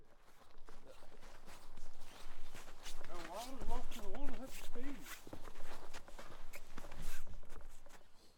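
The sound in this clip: Footsteps of a father and daughter walking around a small wooded enclave, a steady run of soft, irregular steps and rustles that continues through the whole stretch at a moderate level.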